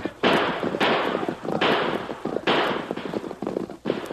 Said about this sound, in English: No, fella, shoot too fast. Bullet go wild.